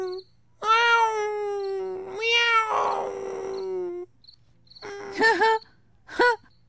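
Cat meowing: two long, drawn-out meows, the second turning rough and strained, then two shorter, quicker cries, fairly loud over a faint low hum.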